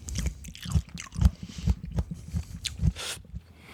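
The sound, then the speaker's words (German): Crisp bites and chewing on a sweet cucumber, with many short, moist crunches following one another in an irregular rhythm. The sounds are fairly faint and close, with no talk over them. “dann mal reinbeißen, ne? Jo. Das ist eine 1A süße Gurke.”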